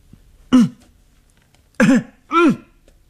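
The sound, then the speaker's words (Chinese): Loud coughing from a man gritting his teeth as he heads toward a staircase, imitated by a narrating voice: three short, throaty, voiced coughs, the first alone and the last two close together. “他咬着牙走过去，他大声地咳嗽。”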